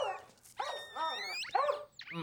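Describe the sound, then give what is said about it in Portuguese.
A dog barking and yelping in a dubbed film scene, giving several shrill, wavering yelps and howl-like cries that rise and fall in pitch in an unbroken run, with no talk. “Ele não para de latir. Você nunca ouviu um cachorro berrando?”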